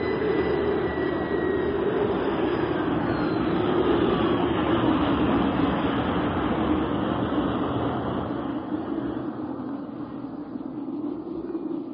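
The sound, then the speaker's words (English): Landing jets of a ship settling on desert sand give a loud, continuous roaring rush that holds steady for several seconds before easing slightly toward the end. “As landing jets churn the desert, flinging sand 100 feet into the air, the ship settles on Bravo 74.”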